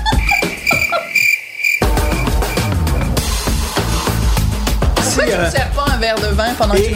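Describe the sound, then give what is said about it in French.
A cricket-chirping sound effect with rapid, high, pulsing chirps over loud music that plays throughout. “Bruit de criquet à rajouter ici.”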